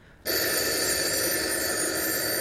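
A telephone rings with a loud, continuous bell tone that starts abruptly after a brief quiet moment and holds steady to the end.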